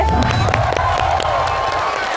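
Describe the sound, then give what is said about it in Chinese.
An audience applauds and cheers to welcome a chef onto a cooking-show stage, with dense, steady clapping and a few whoops throughout. “着急鼓掌是吧？”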